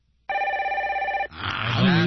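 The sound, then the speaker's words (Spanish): A telephone rings for an incoming call with one steady, bright electronic ring lasting about a second and carrying a fast warble. A voice starts talking right after it. “Tenemos otra llamada.”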